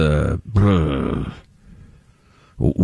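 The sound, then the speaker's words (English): A person groans while straining to think, a loud, drawn-out voiced moan. Quiet follows, then a short vocal burst at the end. “I like when you groan like that, though, when you're trying to think.”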